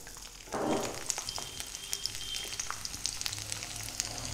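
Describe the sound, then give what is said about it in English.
Roughly chopped garlic, about half a cup, sizzles and crackles as it hits hot oil. A steady frying hiss jumps up after half a second and keeps going, with many small pops scattered through it. “So the oil has started to heat up really well. I'm going to add in the garlic to it.”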